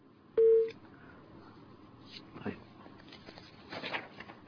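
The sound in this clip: A single short electronic telephone beep signals an incoming caller's line connecting. It sounds loud and steady, then gives way to faint line hiss and a few soft rustles.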